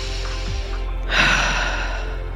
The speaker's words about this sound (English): Releasing that breath pattern and coming back to just a regular in through the nose, out through the mouth.